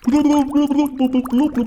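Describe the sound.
A voice imitates underwater blubbing, like an aquarium, making a quick run of many wet, burbling blub sounds at a steady low pitch.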